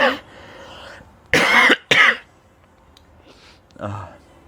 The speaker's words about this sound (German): Ich huste mich gerade nüchtern, das ist so Horror.